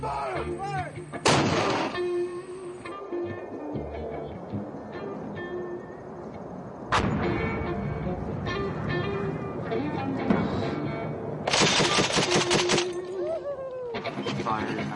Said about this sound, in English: Shots.